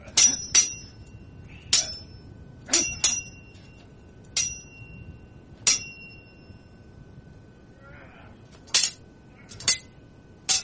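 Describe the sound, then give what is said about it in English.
Swords clashing as a sound effect: many sharp metallic clangs with bright, ringing tails at uneven intervals, with a longer gap before the last few strikes. “Sword on sword violence.”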